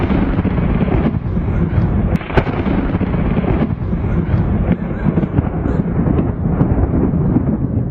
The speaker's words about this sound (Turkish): Antalya'nın Alanya ilçesinde sağanak yağışla birlikte şimşekler çaktı.